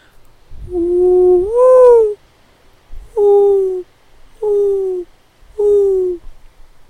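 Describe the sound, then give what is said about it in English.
A man imitates a mourning dove's call with his voice, giving four low hooting coos: the first longer with a rising lift, the next three shorter and steady, slightly sagging, with pauses between. “So you guys probably know this, but the mourning dove makes a sound like this.”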